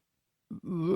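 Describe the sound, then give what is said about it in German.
A person hums to imitate a swift, a short low voiced buzz of about half a second that breaks briefly before continuing, alone and fairly loud. “Summ mal mehr wie irgendwas, wie ein Mauersegler.”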